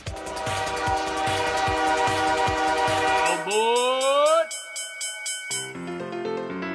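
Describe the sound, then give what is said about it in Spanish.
A train horn sounds a sustained chord over a steady rhythmic clatter of wheels, then gives way to rising electronic tones and sparse synthetic notes. “con la proyección de la llegada de un ferrocarril”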